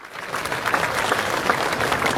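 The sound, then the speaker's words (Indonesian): An audience applauds the artists at a Balinese arts festival. Dense, steady clapping holds at an even level throughout, with no voices standing out. “Tepuk tangan untuk para seniman kita.”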